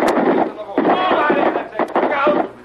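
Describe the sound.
Gunfire in a radio drama shootout between police and fleeing gangsters: a few sharp, bright cracks punctuate shouting voices.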